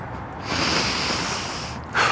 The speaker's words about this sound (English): Deep breath.